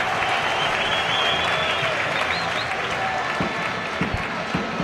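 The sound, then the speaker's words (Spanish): Football crowd in the stands at the Rico Pérez stadium during a Hércules match in Spain's Primera Federación: a broad, continuous wash of crowd noise and clapping, with a few sharper claps standing out toward the end. “Y este es el público en el Rico Pérez.”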